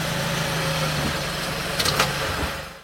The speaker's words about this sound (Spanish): Subes a tu vehículo, y te diriges a tu casa.